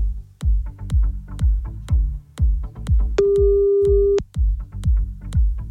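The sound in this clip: A telephone ringback tone plays on a call nobody picks up: a single steady beep about a second long over loud, pulsing rhythmic music.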